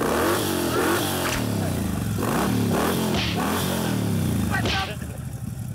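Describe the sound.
A motorcycle engine runs and is revved repeatedly, its pitch climbing and falling with each rev. Voices talk over it throughout, and the engine noise drops near the end.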